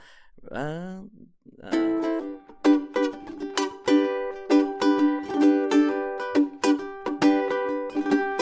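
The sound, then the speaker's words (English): A ukulele is strummed on an open G chord without muting, many ringing down-and-up strokes in a steady rhythm, each chord sustaining bright and full into the next. “You know, if you were to play a G, right? You can just strum. If I were to strum it without the muse, it would sound like this.”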